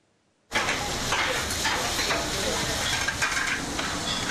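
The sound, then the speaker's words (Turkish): Edirne pan-fried liver sizzles in a pan, a loud, dense hiss that bursts in abruptly after a brief quiet and then holds steady with crackling texture to the end. “Tavada pişiyor, bir dakika içinde servise hazır hale geliyor.”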